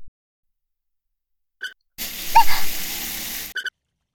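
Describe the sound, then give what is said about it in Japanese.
Hot water poured over someone being washed: a single gushing splash of about a second and a half, rushing and broad, set between brief quiet moments with a few faint taps. “それじゃ最初はお湯かけるからね。”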